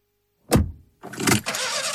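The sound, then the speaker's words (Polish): Diesel car engine struggling to start: a short heavy thud, a brief pause, then a rough, sustained rumble of noise that stays loud to the end. “Silnik diesla znów odmawia posłuszeństwa?”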